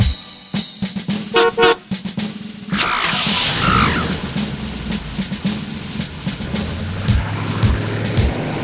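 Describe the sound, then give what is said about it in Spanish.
A car horn honks a few times over upbeat children's music, with short bright toots rising above the steady backing track. “Mi auto tiene una bocina. Me parece divertida.”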